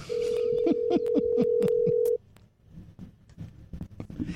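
A phone call is dialed: a steady telephone tone plays under a quick run of short key beeps, then cuts off abruptly and leaves quiet, uneven background noise.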